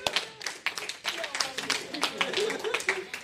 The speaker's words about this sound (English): We applause for Madani!